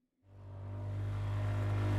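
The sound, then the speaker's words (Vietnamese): A motorbike throttles up and speeds away from a fishing village: a low engine drone starts abruptly and grows steadily louder, holding a continuous rumbling tone. “Rồi cậu vít ga phóng vèo ra khỏi thôn chài.”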